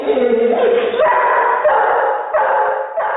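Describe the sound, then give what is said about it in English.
Dogs bark, one playful and one angrily at a stranger. Loud, dense barks and yips run almost without pause, with the pitch shifting between bursts. “Well, if you couldn't tell that the first dog, Kira, was playing while the second, Lassie, was angrily barking at a stranger,”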